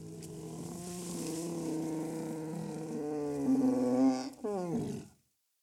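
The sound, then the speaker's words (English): A bear's yawn: a long, low, groaning exhale that grows louder over about four seconds, dips briefly, returns as a shorter rasp, then cuts to silence. “That's a bear yawning.”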